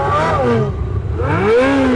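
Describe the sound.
A black Ferrari convertible's sports car engine revs at traffic lights, a throaty roar whose pitch swings down and then climbs again.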